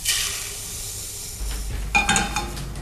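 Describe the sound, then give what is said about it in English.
Sugar being measured in a kitchen in Copenhagen: a steady granular hiss, then a brief clatter of utensils and dishes as the sound grows a little louder. “Okay, so I'm measuring some sugar.”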